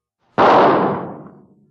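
A single gunshot rings out with a sharp, loud crack, then a rumbling tail that fades away over about a second.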